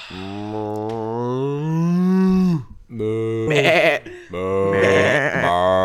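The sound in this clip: Voices imitate farm animals in an improvisation game, giving drawn-out, moo- and bleat-like calls in three sustained, fairly loud bursts with tonal, wavering pitch.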